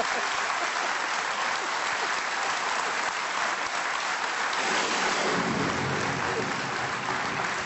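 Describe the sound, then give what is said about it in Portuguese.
A heavy downpour pours down during a radio studio broadcast, a steady, dense hiss of rain that never lets up. The sound grows slightly deeper in the latter half. “A chuvada brutal que está a cair e que faz com que este som, que fica, o som do estúdio, fique um bocado. Aí está ela, em grande.”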